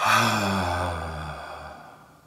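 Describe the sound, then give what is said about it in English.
A single long, deep exhale after a deep breath during a guided breathing exercise, a breathy sigh that starts full and slowly fades away over about two seconds. “then 1 last one, deep breath, 1, 2, exhale”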